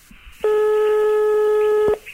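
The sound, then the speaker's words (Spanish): Telephone tone while a call to a hospital room is dialed: a single steady, clear electronic tone lasting about one and a half seconds. “Estoy marcando a la habitación,”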